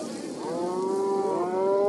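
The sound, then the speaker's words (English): A cow moos in one long, steady, sustained call over rough background noise as teams of wrestlers grapple cattle to the ground for branding on a hot, dusty day. “several teams called wrestlers grapple with 170 cows to bring them to the ground”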